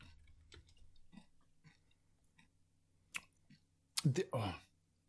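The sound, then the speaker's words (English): Crunchy chewing of a mouthful of roughly ten giant mini M&Ms candies. Faint scattered clicks give way near the end to a few loud, brittle crunches. “These are maxi M&Ms. These are giant mini M&Ms. They taste and feel exactly the same. When you put a bunch in your mouth, like you have to do with mini M&Ms,”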